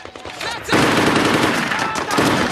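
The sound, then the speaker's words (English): Gunfire exchanged with Marines from a balcony: a quieter opening gives way to loud, dense, sustained rapid fire that continues to the end without a break. “On a balcony, a woman wails in grief while a man fires at the Marines.”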